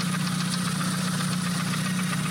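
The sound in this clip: A running engine with a leaking exhaust manifold gasket, idling with a steady low rumble and a fast, even ticking pulse over a constant hum throughout.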